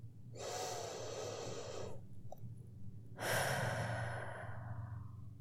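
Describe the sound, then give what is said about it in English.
A deep breath, drawn in through the nose and let out through the mouth: two long, loud, airy breaths, the second rushing out more strongly, with no talking. “Take a deep breath now. Inhale from your nose and exhale through your mouth. Just like this.”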